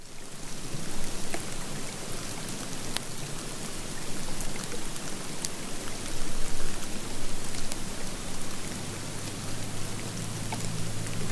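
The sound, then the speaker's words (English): Heavy, wet snowflakes fall onto the branches of a low bush during a May snowstorm in Jackson Hole, Wyoming, beside Teton National Park, making a dense, steady, clicky patter much like rain that swells slightly at times. “And we're right down there in that kind of clicky, wet snowstorm.”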